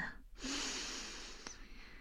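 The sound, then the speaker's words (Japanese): A deep breath drawn in, a long, steady, airy rush lasting about a second, followed by a short click and quieter breathy noise. “深呼吸してください。吸って”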